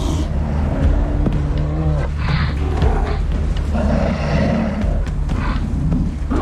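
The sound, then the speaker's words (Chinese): Growls, grunts and roars from two young male polar bears play-fighting while they wait for the sea to freeze over, heard as a continuous loud, rough rumbling with no pauses. “好在这两头年轻的雄性北极熊只是在玩闹而已，他们在等待海面完全封冻。”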